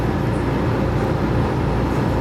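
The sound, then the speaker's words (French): A car aboard a ferry crossing an arm of the sea: a loud, steady low rumble of engine and motion noise that continues unchanged throughout. “C'est pas tous les jours que t'es dans ta voiture et que tu passes un bac pour traverser un bras de mer.”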